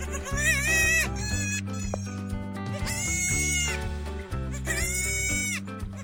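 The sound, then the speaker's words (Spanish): A goat bleating in a few loud, wavering, nasal cries over a continuous lower drone of animal sound, with no talk. “Se trata de una cabra.”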